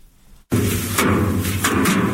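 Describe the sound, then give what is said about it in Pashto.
Farmers in Dand district, Kandahar, beat harvested basil to thresh it: a few heavy, dull thuds strike at uneven intervals over a continuous rustling noise. “د کندهار په ډنډ ولسوالۍ کې کروندګر خپل راټول سوي د ریحان او حاصلات ټکوي تر څو ریحان له بوټو جلا کړي.”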